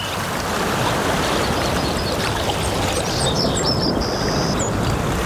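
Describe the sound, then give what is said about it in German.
Water splashes and rushes steadily at the Toskana-Therme Bad Sulza thermal spa in summer, a dense continuous wash with faint bird chirps appearing toward the end. “So klingt der Sommer in der Toskana-Therme Bad Sulza.”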